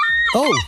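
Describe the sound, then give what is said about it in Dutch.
A herring gull in a city lets out one loud, brief call, a harsh squawk that rises and falls in a single arch. “Dit is een luidruchtige meeuw op misschien wel jouw balkon of bij je in de achtertuin. Want de zilvermeeuw, hij lijkt overal in de stad te zitten.”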